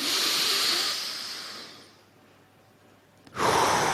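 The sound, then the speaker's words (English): A deep breath in during a breathing exercise: a long, loud, airy hiss that fades out over about two seconds, a quiet pause, then another strong breath starts abruptly. “Take a breath in all the way that you can feel it in your lower stomach, in your belly, next to your belly button.”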